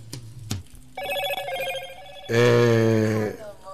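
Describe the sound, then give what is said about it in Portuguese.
Telephone ringtone for an incoming call: two short clicks come first, then two sustained harmonic tone bursts, the second louder and fuller than the first. “Ela tá ligando aqui, então deixa eu ver aqui, que ela deve querer alguma coisinha aqui.”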